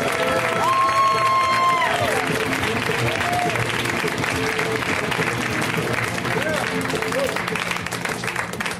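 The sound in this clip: Audience applause and cheering for a comedian being introduced at a stand-up show: dense, steady clapping from a crowd with scattered whoops that keeps up throughout and eases slightly at the end.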